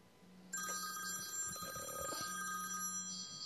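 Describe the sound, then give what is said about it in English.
A telephone rings with an unwanted junk call, a continuous bright electronic trill that starts about half a second in and keeps going, fairly quiet and alone. “do you get a lot of junk phone calls? Oh, sure. Okay, that's another one of those.”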